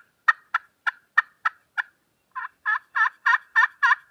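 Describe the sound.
Turkey calls played on a slate call: six sharp, evenly spaced clucks, then a short pause and six longer, raspy yelps in a steady rhythm, clear and alone.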